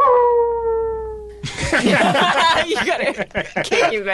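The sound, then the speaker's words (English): A dog's howl comes first, one long drawn-out tone that sags in pitch. It cuts off abruptly and gives way to chuckling, laughter and lively talk. “I hope all these mentions get covered over with like a dog howl or something.”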